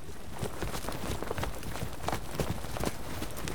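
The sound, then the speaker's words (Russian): Horses trot faster, pulling a covered sleigh along a packed sled track on river ice, their hooves making many quick, rhythmic thuds that stay fairly faint throughout. “Прохор повернул кибитку с берега на лед Истьи, и лошади по накатанному санному пути побежали резвее.”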